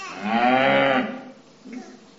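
A cow moos in one long, loud, low bellow that holds steady and then fades out, followed by a much fainter sound.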